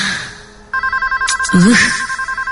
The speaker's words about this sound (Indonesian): ini telepon bikin kaget aja deh . Ada suara telepon berbunyi di kamar itu.